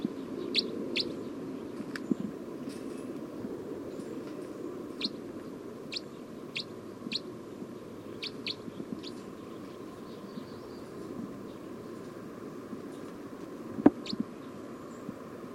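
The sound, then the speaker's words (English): Bird calls: many brief, high, thin chirps scattered irregularly over a steady low background hum, mostly faint with one sharper click near the end. “Recording bird 306 again.”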